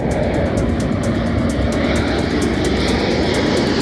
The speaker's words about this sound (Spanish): los aviones Pilatus PC-21 de la Academia General del Aire. Este es el sonido de los preparativos.